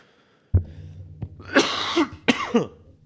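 A person with a frog in the throat coughs and clears their throat. A few harsh, rough bursts come one after another with short pauses between them, and there is no speech.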